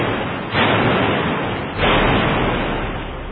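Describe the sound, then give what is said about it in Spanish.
Musket volleys from French soldiers firing on a Madrid crowd in 1808: two loud, booming blasts a little over a second apart, each trailing into a rolling rumble, with no voices. “Y con presteza, los franceses se sitúan frente a los madrileños. Y sin mediar palabra, los oficiales franceses ordenan abrir fuego contra la turba.”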